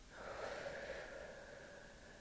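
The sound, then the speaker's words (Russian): A single long, soft breath taken during a guided breathing exercise, a faint airy whoosh lasting about two seconds, steady then slowly fading, heard alone without talk. “Давайте сделаем вдох и выдох.”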